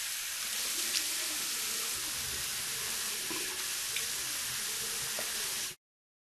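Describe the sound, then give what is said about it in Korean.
Water running from a sink tap while someone washes their face: a steady, even rushing hiss that holds at one level for several seconds, then cuts off abruptly. “세수해가지고.”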